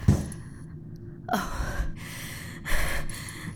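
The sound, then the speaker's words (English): A panicked person hyperventilating and gasping for breath, heard alone as a few sharp, breathy gasps with short pauses between them, two of them strong and harsh. “Hey, breathe slow. You're hyperventilating.”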